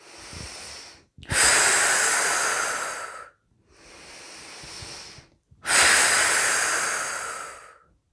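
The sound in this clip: Slow, deep breathing during guided relaxation runs through two cycles. Each is a quieter inhale followed by a longer, louder hissing exhale that gradually fades, with brief silences between breaths.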